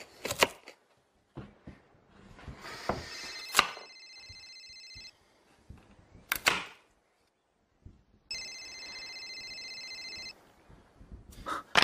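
A telephone rings in two bright, trilling bursts, separated by a pause. Scattered clicks, thumps and clattering handling noises surround the rings, with no talking.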